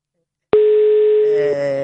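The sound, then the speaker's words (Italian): Telephone ringing tone during a call: after a short silence, a steady electronic tone starts abruptly and holds at an even pitch and level. “Scusate, vi faccio sentire anche lo squillo, così siete partecipi di tutti i particolari di cronaca.”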